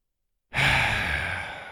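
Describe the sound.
A deep breath taken in one long, airy draw that starts abruptly, loud and alone, then slowly tapers off.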